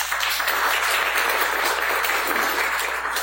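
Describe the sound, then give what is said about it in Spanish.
Applause from an audience at a university faculty event, a dense, continuous wash of clapping that holds at an even loudness throughout, with no single voice standing out. “doctora Astrid Ríos, aplauso para ella”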